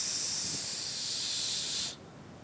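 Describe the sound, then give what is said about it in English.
A voice imitates water spraying from a burst water heater in a laundry room. A bright, steady hiss lasts about two seconds, then cuts off abruptly. “and it's water. The water heater busted. And there's water spraying everywhere.”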